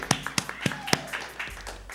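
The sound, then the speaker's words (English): Audience clapping to welcome a guest: several sharp claps in a steady beat at first, then thinning into softer, scattered patter. “brothers and sisters, can we put our hands together? Welcome the naughty realtor.”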